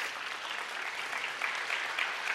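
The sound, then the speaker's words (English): A church audience claps steadily, a quiet, even patter of many hands with no voices. “You can clap for him. That's good.”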